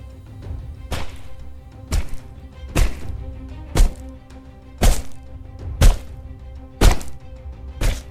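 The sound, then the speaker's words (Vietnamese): Heavy hammer blows strike a man's head, eight dull, thudding impacts landing at a steady pace of roughly one per second over a low, sustained drone. “Tôi cứ thế nghiến răng nghiến lợi liên tục mà dùng cây búa giáng xuống đầu của lão.”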